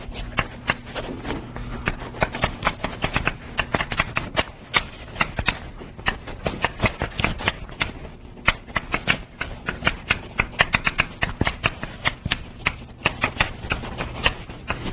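Chalk writing on a board during a math lecture, heard as many rapid tapping and scratching strokes in an irregular rhythm, fairly faint, with no speech.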